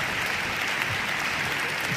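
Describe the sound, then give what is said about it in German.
Audience applause for a team welcomed onto a stage: a dense, even wash of clapping that holds steady from start to finish. “Ja, einen großen Applaus.”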